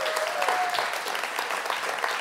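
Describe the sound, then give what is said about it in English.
A church audience gives a round of applause, dense and even clapping from many hands, steady in level throughout. “And so for their sake, would you give them a round of applause?”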